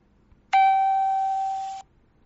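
A single electronic chime, one bright sustained ding rich in overtones that rings on for over a second and fades slightly before cutting off, heard alone.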